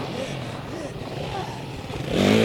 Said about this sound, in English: Gotta get the dirt bike. Okay, here we are. Let's get out of here.